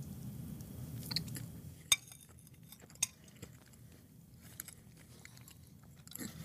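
Faint chewing and biting while tasting cake, soft moist mouth sounds with a couple of sharper crunchy clicks standing out from a low, quiet background.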